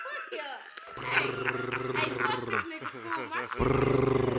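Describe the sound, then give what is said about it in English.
A person growls in a deep, rough, roar-like voice, raspy and sustained with short breaks, loud throughout. “I thought he was growling.”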